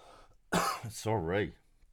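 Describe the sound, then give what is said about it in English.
A single cough, abrupt and fairly loud: a harsh burst of breath followed by a voiced, throaty tail before it fades to quiet. “That cough in your ear.”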